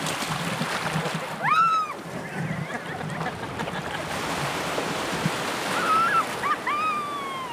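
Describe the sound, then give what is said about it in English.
Ocean water and waves wash steadily as someone paddles through them, forming a constant rushing surf with a few high, curving chirps heard above it. “Just start to paddle now. Slow and steady, building up some speed. Picking up the pace. Power paddle now.”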